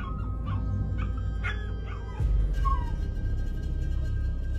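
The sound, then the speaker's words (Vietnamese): Dogs along a village road whimper and yelp with tails tucked: a few thin, high whining yelps sound over a steady low rumble that grows louder partway through. “Thậm chí những con chó ở hai bên đường như cảm nhận một sự gì đó, chúng nó cụp đuôi cứ ăn ẳng lên.”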